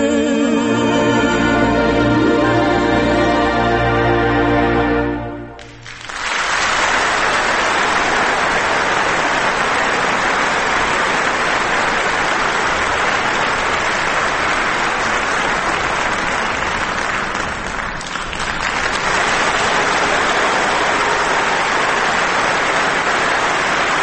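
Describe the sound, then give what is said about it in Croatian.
Long, loud applause from a crowd breaks out as a short stretch of tonal music ends, then continues as a dense, even wash of clapping for nearly twenty seconds with only a slight dip partway through. “nije baš bio planiran ovaj aplauz ovako dugo.”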